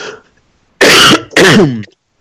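Throat clearing from a dry throat: two loud, harsh rasping bursts in quick succession, heard alone.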